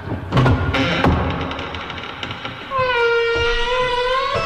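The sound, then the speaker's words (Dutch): Heavy warehouse door closing, a rumbling clatter with a few dull thuds that fades out after the first second. “Nou, die deur gaat weer dicht van het pakhuis.”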